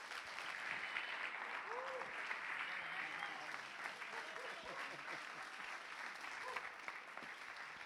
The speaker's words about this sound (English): So would you give him a big hand?